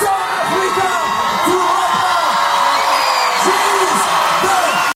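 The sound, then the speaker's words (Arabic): A loud festival crowd cheers at a Mawazine concert, its 21st edition, with repeated whoops and high shouts rising over a constant roar for about five seconds. “بفضل هذا العرض الحيوي، وقعت النجمة العالمية على واحدة من أقوى سهرات الدورة 21 لمهرجان موازين وسط تصفيق حار وتجوب جماهيري كبير.”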